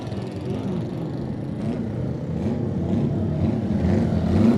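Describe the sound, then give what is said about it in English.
A Norton racing motorcycle pulling away from the start line at a race: a low, rough engine drone that grows gradually louder toward the end, with no voices. “The R&R Racing Norton comes to the line.”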